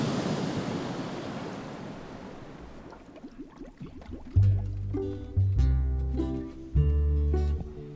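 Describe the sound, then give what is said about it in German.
Flood water rushing in and waves surging as it fills a room: a roaring, broad wash of water that fades over about three seconds, then gives way to music with sustained low notes. “Die Flut hinter dem Cornel brauste heran. Es dauerte nur wenige Augenblicke, bis das Wasser den Raum gefüllt hatte und über dem Kopf des Cornels zusammengeschlagen war.”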